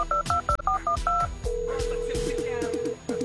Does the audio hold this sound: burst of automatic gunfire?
no